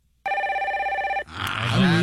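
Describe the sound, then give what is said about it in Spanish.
Telephone ringing with an incoming call: one steady, warbling electronic ring lasting about a second, cut off when a voice starts speaking. “Tenemos otra llamada.”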